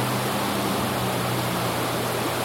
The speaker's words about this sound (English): I'm sure if you spill and the thing goes away down the river and you're left trying to hump crawl over the rocks, you'd get hurt in this current.